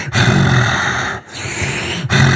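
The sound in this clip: A voice imitates someone's heavy breathing outside a bedroom door: long, loud, rasping breaths one after another, separated by brief gaps, with no other talk.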